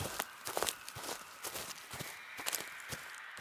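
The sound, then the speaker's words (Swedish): Brisk footsteps of a grandmother walking with a lively stride: many quick, even, faint steps in a steady rhythm, with no voices. “medan hon promenerade med pigga steg.”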